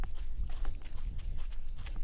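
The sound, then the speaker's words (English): Running footsteps on a desert path near a house in Mesa, Arizona, in December: a steady rhythm of light crunching strides over a low, continuous rumble. “It's December, and we're going for a run. A run on a desert path near his house.”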